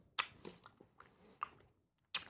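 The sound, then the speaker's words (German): Wet chewing and mouth sounds from eating warmed, runny Nutella off a spoon: a few soft, separate smacks and clicks with quiet gaps between them, and no talking. “löffel jetzt gerade äh, schöne flüssige Nutella”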